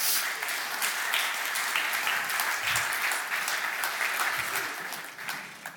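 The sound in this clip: Audience applause greets families coming onto a stage: loud, dense clapping holds steady throughout and eases slightly toward the end.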